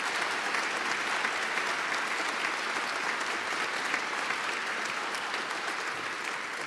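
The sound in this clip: Applause from a church audience welcoming a guest during a morning service at Nashville First Baptist, a steady, sustained wash of clapping that holds evenly throughout with no voices over it.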